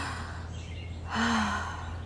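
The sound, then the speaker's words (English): A single deep breath with a broad, airy exhale that swells and then fades over steady low background noise. “Do it with me right now, guys. Breathe in, breathe out.”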